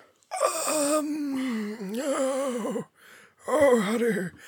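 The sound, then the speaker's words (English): A person gives a raspy, voiced exhale: one long, gravelly, breathy outbreath, then a brief pause and a shorter one. No words are spoken. “I don't know why I sounded like Voldemort. It just seems to be how I exhale now.”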